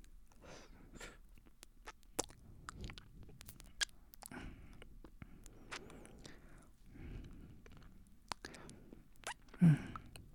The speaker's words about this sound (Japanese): まずは栗舐めますね。